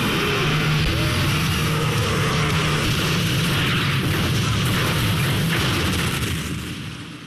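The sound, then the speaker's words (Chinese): A car is blown apart by a lit explosives pack, a loud, dense, sustained roar and rumble that holds steady throughout before fading away at the very end. “等他美美的抽完这一口，丧尸也拼命的往里爬的时候，这车就炸了。”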